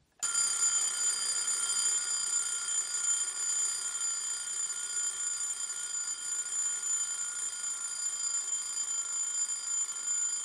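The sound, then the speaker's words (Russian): A mechanical alarm clock with two bells, set for seven, on a walnut side table beside a sofa bed, rings continuously with a loud, shrill metallic clatter for about ten seconds, with no pause. “Установленный на 7 будильник с 2 колокольчиками.”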